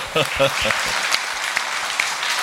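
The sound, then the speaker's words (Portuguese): Applause follows a brief voice at the start, then settles into a steady bed of clapping with a few sharper claps standing out. “Oh, palmas para Jesus.”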